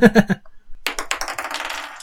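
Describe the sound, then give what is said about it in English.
Dice clatter onto a table during a tabletop role-playing game: a quick run of many small clicks and rattles that follows a brief burst of someone talking. “Make your attack roll. Sorry, just one second. I'm changing dice”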